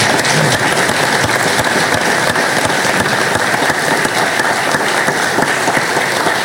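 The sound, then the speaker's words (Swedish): Loud applause at a gathering: dense, continuous clapping with sharp individual claps standing out, sustained at an even level throughout. “Jag tycker de kan få en applåd till.”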